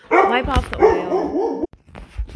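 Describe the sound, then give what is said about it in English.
A pet dog's loud burst of barks and whining yips, with tonal wavering cries running together over about a second, then a brief pause and a few fainter sounds. “sorry, my dog was barking, so I had to pause and regroup.”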